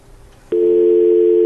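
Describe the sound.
Telephone line tone after a dropped call: a steady, loud, mid-pitched electronic tone cuts in abruptly after a moment of faint noise and holds unbroken to the end, with no talking.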